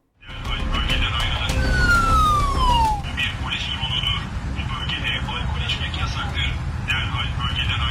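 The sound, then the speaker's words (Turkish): A police drone used by Istanbul police to check for rule violations gives a warning siren: a loud wail falling in pitch over a steady roar, then loudspeaker-like announcement speech. “Dronlardan uyarı sesini duyanlar şaşıp kaldı.”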